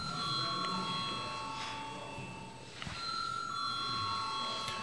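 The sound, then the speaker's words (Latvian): An electric bell rung in the Latvian parliament chamber to call a vote: a steady, continuous high-pitched ringing with a brief break near the middle. “Deputāti prasa balsojumu, lūdzu zvanu.”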